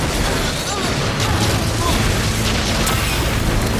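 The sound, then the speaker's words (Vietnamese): A dark laser attack sound effect from an animated battle: a loud, dense roaring blast of noise that holds steady for the whole clip, with low booming undertones beneath it. “Nhận lấy này, laser hắc ám.”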